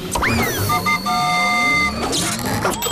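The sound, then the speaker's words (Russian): Cartoon villain's stink machine switching on: a whirring electronic contraption with a rising whistle sweep, then steady high-pitched tones and beeping pulses over a continuous rumble. “Я включаю свой тухлонатор.”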